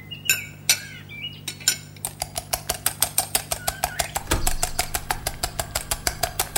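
Pancake batter being mixed in a bowl, a long run of many rapid, evenly spaced clinks as the utensil strikes the bowl, over a low, constant hum.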